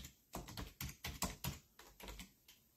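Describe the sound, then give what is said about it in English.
Keyboard typing on a computer while looking up a passage of scripture: many quick, sharp keystrokes in an irregular rhythm, some in close bursts and others spaced apart, with no speech. “Oops, I can type. I really can type. I promise you.”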